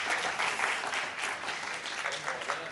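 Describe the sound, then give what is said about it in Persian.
An audience claps steadily for the whole stretch in honour of the women, a dense and even wash of applause with no clear break. “همیشه بالا به افتخار خانوما دست بزنی.”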